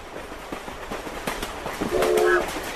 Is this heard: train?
yes

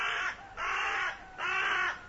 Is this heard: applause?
no

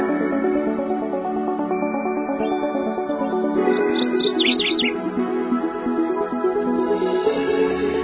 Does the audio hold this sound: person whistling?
no

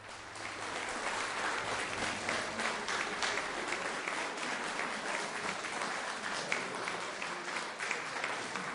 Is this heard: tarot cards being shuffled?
no

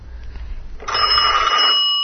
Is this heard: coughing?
no

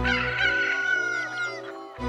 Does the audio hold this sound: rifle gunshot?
no

